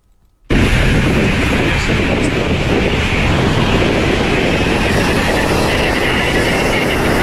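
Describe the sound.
Wind in the Guajira desert of Colombia bursts in suddenly as a loud, steady roaring rush and holds at full strength, unbroken, to the end.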